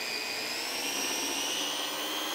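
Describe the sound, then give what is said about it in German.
A blender purees blanched spinach into a smooth green paste for colouring food. It gives a steady, continuous high-pitched motor whir with a thin whine that holds evenly throughout, with no voices. “Ich habe jetzt hier ganz einfach einen blanchierten Spinat und der wird jetzt püriert.”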